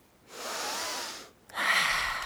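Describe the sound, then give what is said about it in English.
A person takes a deep breath: a long airy inhale, a brief pause, then a slightly stronger, brighter exhale. No voices are heard. “Let's take a deep breath.”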